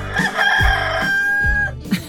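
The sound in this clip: A rooster crows once with a loud, strained cock-a-doodle-doo lasting about two seconds, rising into a held note before breaking off.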